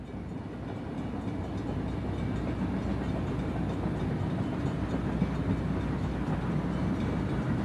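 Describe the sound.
A moving train rumbles inside a luxurious passenger carriage with velvet seats: a continuous, even low roar with faint rattling, no distinct clicks and no voices.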